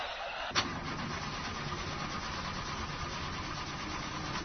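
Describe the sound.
A car engine cranks but fails to start: a sharp click, then an even, churning starter drone holds at steady loudness for about four seconds without catching, and no voices are heard.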